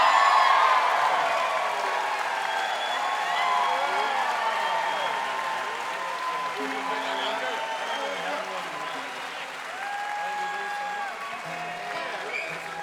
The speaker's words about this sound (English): Give it up for him, Bavar.